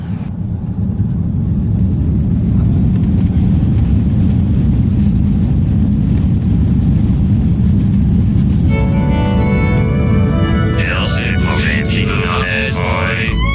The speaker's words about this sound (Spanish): lo grabé de regreso a mi casa, en el avión. Bien, sí, preparé-vos para el décollage.